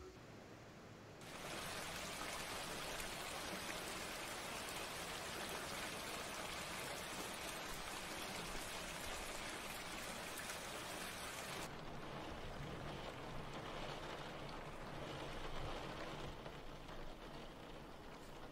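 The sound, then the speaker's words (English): Steady rain falling outside, a dense, even hiss that starts after a brief quiet moment and continues unbroken at moderate loudness, easing slightly partway through, with no talking. “It's raining outside.”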